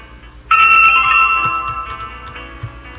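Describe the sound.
A telephone ringing tone plays while a call is being transferred. It starts abruptly as a steady electronic tone and slowly fades, with faint low background sounds beneath.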